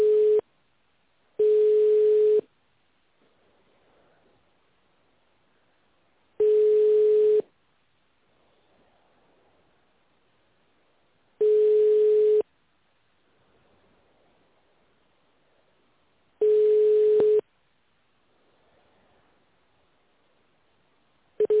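Telephone ringing tone on an unanswered call: short bursts of a steady low tone repeat about every five seconds, with quiet hiss between them and no voices.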